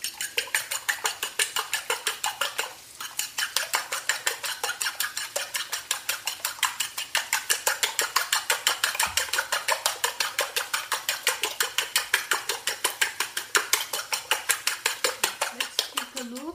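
A utensil beating a mixture seasoned with salt, pepper and cumin seed in a bowl. Many light, clicking strokes follow in a fast, even rhythm, with a brief pause early on before the steady beating resumes.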